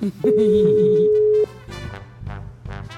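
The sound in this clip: Telephone ringback tone of an unanswered call, one steady, clear tone held for just over a second, then conversation begins.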